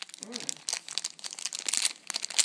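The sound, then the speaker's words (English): Packaging crinkles and tears as a small USB extender is unwrapped, giving quiet, irregular crackles and rustles with brief louder crunches. “the thing that I'm unwrapping now is what I hoped would be in here, which is a little USB extender.”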